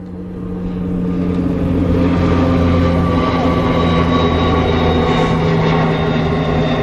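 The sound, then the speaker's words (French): A CASA military transport airplane drones overhead at 2,500 metres above a forest clearing during a joint military exercise. Its continuous, loud engine roar carries a steady tonal hum, swells in over the first second, then holds evenly. “À 2500 mètres d'altitude, un avion militaire, un CASA, survole une clairière entre la RN1 et la forêt d'étang Salé.”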